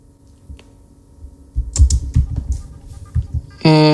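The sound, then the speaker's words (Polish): The Enter key is pressed on a computer keyboard while using the NVDA screen reader, among a scatter of sharp plastic key clicks of varying loudness, followed by a sustained electronic tone. “Naciskam Enter.”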